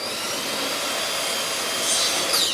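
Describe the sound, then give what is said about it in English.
Baseboard trim goes in on new office space on the second floor of a downtown Rochester building, with a continuous, steady whirring hiss of tool noise that swells slightly near the end, with no talking. “On the second floor of downtown Rochester's newest building, the H3 Plaza, baseboard trim goes in on office space.”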